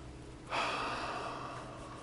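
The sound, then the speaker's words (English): A group of people drawing one long, deep breath together: a soft, airy rush that begins abruptly and holds for about a second and a half before slowly tapering off. “everyone take a deep breath for me.”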